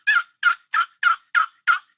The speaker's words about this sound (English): I can't call with my voice and I don't have any mouth calls. But you know, your basic hen yelp is a